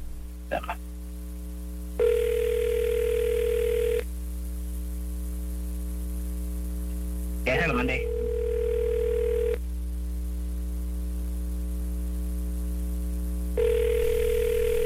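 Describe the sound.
Ringback tone of an outgoing phone call to a mobile that goes unanswered: two full steady beeps, each about two seconds long and separated by long pauses. A third beep starts at the end, all over a constant low hum.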